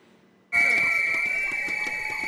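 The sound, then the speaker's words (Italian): Protesting Volkswagen workers blow whistles at a union march outside the Wolfsburg car plant. A loud, shrill, sustained whistle tone starts abruptly, with further whistling and crowd noise underneath. “Marciano con i fischietti e le bandiere rosse del sindacato IG Metall davanti allo storico stabilimento di Wolfsburg, in Bassa Sassonia”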